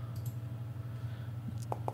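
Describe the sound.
A few faint, sharp computer mouse clicks during a tabletop role-playing game session, bunched near the end over a steady low hum.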